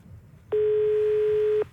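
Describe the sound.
A telephone answering machine beep: one steady, loud mid-pitched tone lasting about a second over a low background hum.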